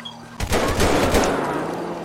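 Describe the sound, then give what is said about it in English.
A rapid burst of several gunshots fired as warning shots, sharp cracks landing in quick succession over about a second and blurring into a loud, rumbling tail, with a faint steady tone audible beforehand. “I'm gonna fire some warning shots.”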